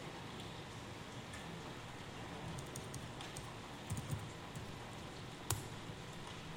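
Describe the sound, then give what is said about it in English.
Computer keyboard typing as a command is entered, with a few scattered, faint key clicks over steady background hiss. “I'm going to type out.”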